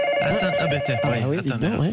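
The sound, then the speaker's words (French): Telephone ringing nonstop at the 15 emergency line during the coronavirus outbreak: a steady electronic ring tone running throughout beneath a person talking. “Écoutez, ça n'arrête pas d'appeler.”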